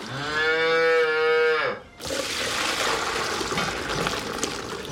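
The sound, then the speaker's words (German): A seven-year-old German high-yield dairy cow lets out one long, loud, tonal moo, then a steady rushing, watery noise follows. “Mit ihren 7 Jahren ist Renate 2 Jahre älter als die durchschnittliche deutsche Hochleistungskuh.”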